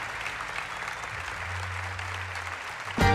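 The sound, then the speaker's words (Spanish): Audience applause after a live music performance with guitar and vocals, dense steady clapping that holds at an even level throughout. “Y un aplauso para Laura Marcé en voz, de acá de Rosario.”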